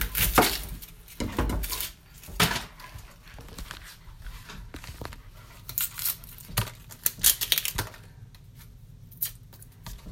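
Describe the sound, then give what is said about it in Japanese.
Knife chopping an onion finely on a board in a home kitchen, irregular bursts of sharp cutting strokes and scraping, some quick clusters and some single knocks. “今日は玉ねぎを刻みます”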